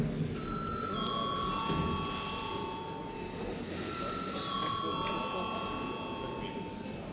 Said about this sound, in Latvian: Lūdzu zvanu.